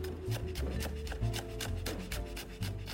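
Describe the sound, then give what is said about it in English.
A knife chops quickly on a cutting board, mincing smashed, peeled garlic cloves very fine. Many light, evenly spaced chops run in a steady rhythm at moderate volume. “And just mince those up. Super fine mince. You don't want like 2 big chunks of garlic, but we definitely want the flavor. Just mince it up.”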